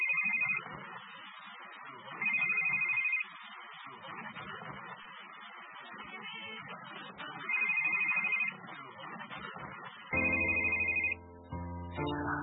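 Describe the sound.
A telephone rings in four separate electronic bursts, each lasting about a second, with gaps between them. A continuous murmur of background sound runs underneath throughout.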